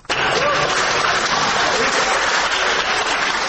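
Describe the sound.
Supporters burst into loud, continuous applause inside a city courtroom, a dense, steady wash of many hands clapping that holds at full strength for the whole stretch.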